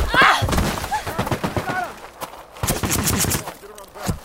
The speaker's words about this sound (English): The guards are shooting at someone over there.